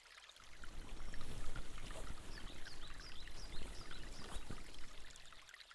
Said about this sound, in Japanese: この水ってどこまで行くんだろう